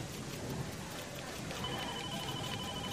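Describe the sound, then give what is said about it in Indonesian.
Steady rain falls while a motorbike rider waits for it to stop. It makes a soft, continuous hiss, even and unbroken throughout, with no voices. “Ditambah sepertinya aku lupa membawa jas hujan. Ya, mau tidak mau harus menunggu hujan sampai selesai baru bisa pulang.”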